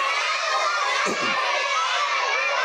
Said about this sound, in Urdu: میں دیکھ لوں کس کس بچے کی زیادہ تیز آواز آ رہی ہے